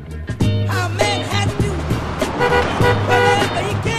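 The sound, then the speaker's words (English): A black taxi cab's engine hums steadily as it drives along a country road through green landscape. The drone stays low and continuous, with layered tonal sounds shifting above it throughout. “The car drives on through ever-greener landscape.”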